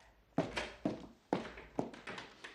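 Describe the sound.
Knocking on a house door in a dramatized story: several dull, resonant thuds in an uneven rhythm, each with a short ringing tail, and no voices.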